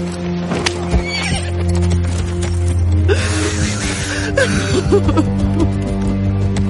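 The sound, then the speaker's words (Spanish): Horse neighs and whinnies loudly while being ridden away, mixed with rhythmic clip-clop hoofbeats over a steady low drone. “se aleja a caballo.”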